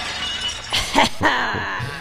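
Window glass breaking: a few sharp shattering crashes with bright tinkling edges over a steady background bed.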